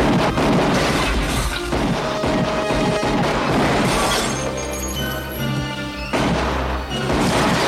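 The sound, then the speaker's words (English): Loud blasts and shattering crashes come from a movie action scene where a gunshot sends a propellant-filled barrel flying into the air. The din is dense and continuous, with a short dip partway through. “The barrel that I guess had some sort of propellant in it just got launched into the air after a gunshot.”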